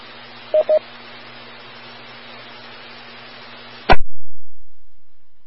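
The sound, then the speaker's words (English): An amateur radio repeater's timeout timer tone sounds during a stuck-open-mic example: two short beeps over hissy radio noise and a steady hum, then a sharp burst as the signal cuts out. “that was my timeout timer kicking off in a minute there”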